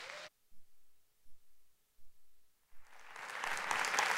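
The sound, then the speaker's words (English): Applause welcoming a pastor at a church service: after a near-silent stretch broken by a few soft low thumps, a crowd's clapping swells up and keeps building to the end. “I would love it if each and every one of you guys would put your hands together for a warm welcome for Pastor Jonathan Wiggins this weekend.”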